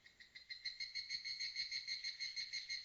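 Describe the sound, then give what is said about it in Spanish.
Cicada singing in late summer near a small village, a rapid pulsing buzz of high, shrill tones that repeats many times at an even rhythm and stays fairly faint, with nothing else heard. “Desde algún lugar resonaba el canto de una cigarra, como si intentara desesperadamente retrasar el inevitable final del verano.”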